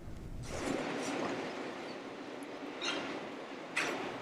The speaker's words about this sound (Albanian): Trenat që kalojnë përmes Virginias rurale nuk transportojnë me qymyr në centralin Bremo.